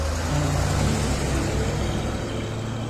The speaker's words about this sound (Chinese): 车驶上小路离开